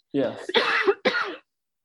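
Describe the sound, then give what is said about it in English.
A person coughs a few times while drinking. The coughs are harsh and voiced, come in quick succession and are moderately loud. “while you're drinking to cover up your cough there”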